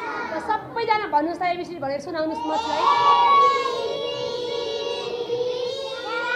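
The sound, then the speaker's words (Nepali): Many children's voices from pupils at a riverside school: scattered chatter at first, then from about three seconds a loud, sustained group of voices in steady unison, like a class reciting together. “बरु नदी किनारको विद्यालयमा पढिरहेका बाबु नानीको आवाज टड्कारो सुनिन्छ।”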